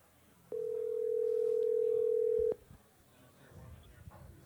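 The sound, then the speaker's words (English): A single long electronic ringback tone sounds as a phone call is placed. It holds at a steady pitch for about two seconds, then cuts off abruptly. Nobody speaks. “All right, so we're going to give him a call right now.”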